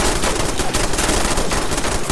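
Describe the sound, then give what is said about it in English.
Video game gunfire aimed at the player: a dense, loud rattle of rapid machine-gun bursts that continues without pause, with no voices. “Oh god, I'm getting shot.”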